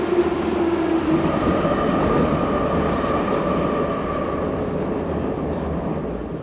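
A metro train arriving: a loud, steady rumble of wheels on rails that fills the whole stretch, with a faint whine riding above it and no pause or break.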